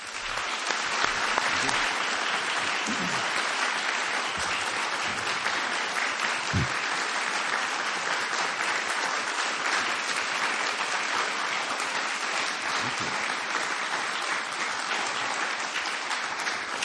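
An audience gives sustained applause to welcome guests onto a stage. The clapping is loud, dense and even, holding steady throughout without fading.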